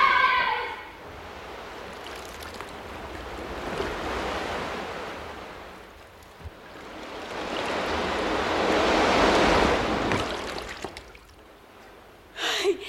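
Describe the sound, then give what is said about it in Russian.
Surf of an incoming tide, two broad waves of rushing, hissing water that swell and fade, with wind noise. “Начинается прилив. Скорее, скорее! Давай, скорее, скорее, скорее!”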